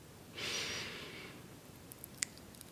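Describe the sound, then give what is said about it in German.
A single deep breath drawn into the belly, heard as a slow, airy inhale lasting about a second, quiet overall, followed by a few faint, small clicks. “atme doch ein, zwei, dreimal tief in deinen Bauch ein.”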